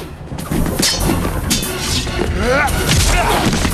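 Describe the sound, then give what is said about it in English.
Kicks and punches land in a frenetic, leaping fight between a sword-wielding vampire hunter and a ninja woman, heard as a dense run of whacks, thuds and crashes over a busy background. “They move frenetically, exchanging kicks and punches while leaping high into the air.”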